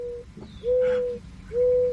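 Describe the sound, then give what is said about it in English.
Mourning dove cooing: a brief note at the start, followed by two long, steady, hollow coos at a fixed pitch with gaps of quiet between them. “Bye-bye, morning dove.”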